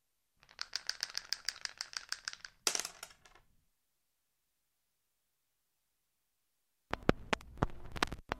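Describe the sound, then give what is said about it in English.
Dice rolled, giving a rapid run of small rattling clicks that ends in a louder clatter, then a long silence before a second burst of rattling. “Roll the dice. Roll the dice.”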